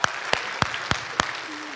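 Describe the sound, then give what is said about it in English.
Applause from an audience giving a man on stage a hand, a dense patter of clapping marked by a few sharp, evenly spaced claps standing out in a steady rhythm. “All right, give him a hand.”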